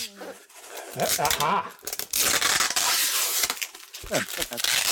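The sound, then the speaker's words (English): Heavy duty tape is peeled off a styrofoam-wrapped package from inside an envelope, giving bursts of rasping, crackling tearing that come and go, with talking mixed in between the pulls. “inside the envelope is some something wrapped in styrofoam with, oh, good, more tape. More heavy duty tape. See, the key is to find where it begins.”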